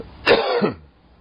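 A throat clearing caused by food stuck in the throat: one rough, harsh burst with a growling rasp that swells twice, loud and alone before fading to quiet.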